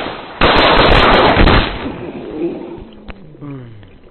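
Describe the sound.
Gunshots in a video of a man being shot: a loud, sharp blast bursts into a dense roar of noise lasting about a second, then fades into a rumbling tail, with a voice briefly heard at the end.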